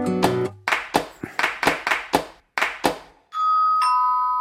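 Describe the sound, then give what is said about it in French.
Two-tone doorbell chime at a door, a higher note followed by a lower one, ringing out after a quick series of sharp, clap-like hits. “t'as sonné à la bonne porte, t'es sur Fun Radio”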